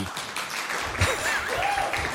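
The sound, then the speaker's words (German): Applause from people gathered in a radio studio, a moderate, even wash of clapping lasting the whole clip. “Das heißt, ich glaube, wir haben uns einen Applaus verdient.”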